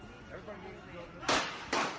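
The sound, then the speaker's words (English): Two loud, sharp bursts of gunfire from a police officer's weapon ring out right outside an airport baggage claim. Each crack carries a short ringing tail, rising abruptly over a steady low murmur. “The gunfire erupted right outside baggage claim. A police officer firing at least 9 shots.”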